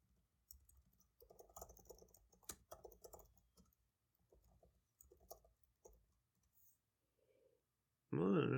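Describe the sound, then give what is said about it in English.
Someone types on a computer keyboard: a quiet, irregular patter of many keystrokes in short bursts separated by pauses. A loud voice breaks in at the very end. “Right, real quick, type Nike's international business strategies.”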